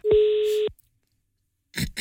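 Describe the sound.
A telephone ringing tone while calling a help number for motoring questions: one steady tone of about half a second, then silence, then a couple of brief noisy bursts.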